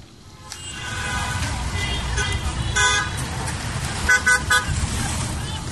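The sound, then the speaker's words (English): Road traffic on a busy street in Imphal: a steady rumble of engines with a few short car-horn toots rising above it, bunched together near the end. “Hauzik Imphalgi maru oiba lambi singda oiriba traffic ki phibam mayamgi lambi chathuk sasinda”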